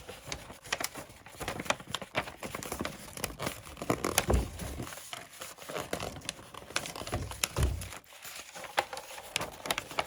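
Gift wrapping paper being folded gives a dense, continuous crinkle and rustle, with a couple of louder crunches standing out from the steady crackle.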